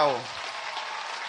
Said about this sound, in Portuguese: nós possamos bater uma grande salva de palmas para eles.